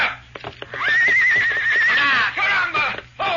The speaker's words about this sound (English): But Victor suddenly whirled and bent his head low and kicked high with his back hooves. Carlos, totally unprepared for Victor's action, flew over the horse's head and landed flat on his back.